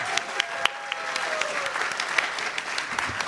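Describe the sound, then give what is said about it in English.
A crowd claps to welcome a guest: steady, moderately loud applause throughout, with a few sharper individual claps standing out from the continuous patter. “So everyone, please put your hands together for Trey.”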